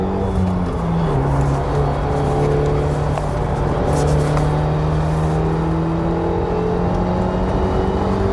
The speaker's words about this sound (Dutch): Trophy R wil dan ook niets liever dan lekker scheuren.